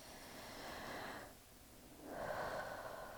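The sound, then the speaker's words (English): A deep breath taken during a guided relaxation exercise: two long, soft, airy breath sounds separated by a short pause, with no talking. “Take a deep breath right now. I'll do it with you.”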